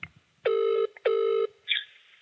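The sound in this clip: Ringback tone of an outgoing phone call from a withheld number: two short, steady electronic rings with a gap between them, then a brief higher blip, all fairly quiet.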